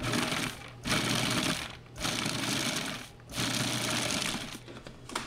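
A food processor pulses in short, loud motor bursts of about a second each, grinding ingredients, with brief gaps between the whirring pulses.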